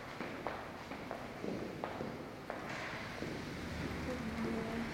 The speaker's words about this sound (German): Folgen Sie mir zum Ausgang. Achtung, Treppe runter. Eine, zwei, drei, vier Stufen. Und weiter geht's.